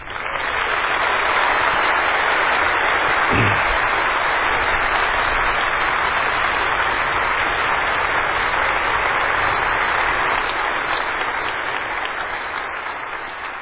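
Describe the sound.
Audience applause at a Christian gathering as Pastor John MacArthur is welcomed onto the stage: steady, dense clapping that holds for about fourteen seconds and eases slightly toward the end.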